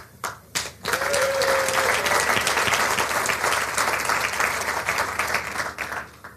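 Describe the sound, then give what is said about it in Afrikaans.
An audience bursts into applause, with a few scattered claps first and then dense, steady clapping from many hands that holds loud for about six seconds before thinning slightly. “Iemand al ooit so iets moois vir julle gesê? Iemand al ooit vir julle hande geklap?”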